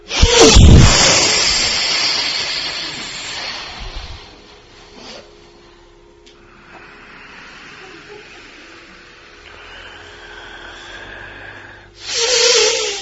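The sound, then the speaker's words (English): A deep exhale during a seated breathing exercise: a loud, breathy rush of air that tapers off over a few seconds into near quiet. Another strong breath starts near the end. “Do a real deep exhale.”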